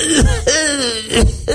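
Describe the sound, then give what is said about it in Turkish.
A voice imitates the cough of a sick 75-year-old man who smokes heavily and drinks: a few rasping, hacking bursts joined by a strained, groaning voiced tone, loud and alone. “yaşlı, hasta, çok sigara içen, alkol kullanan 75 yaşında adam öksürüğü yapayım mı?”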